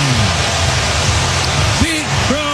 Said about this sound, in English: Strong leads off the first inning with a long home run, his 34th of the year. Listen to this crowd.